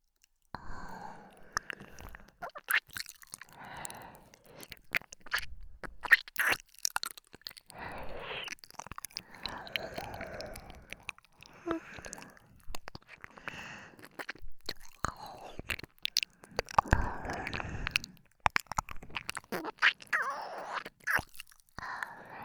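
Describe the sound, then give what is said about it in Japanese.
Ear-licking ASMR performed by two people from left and right at once: soft, wet mouth and licking sounds recur irregularly many times, quiet and close, with no clear speech. “今日は二人で耳舐めをさせていただきますね。左右から同時にしますので、たっぷりと気持ちよくなってください。”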